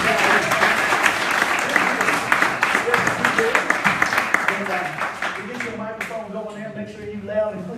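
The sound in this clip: Audience applause welcoming a guest speaker: dense, lively clapping that gradually thins out as a voice starts talking near the end.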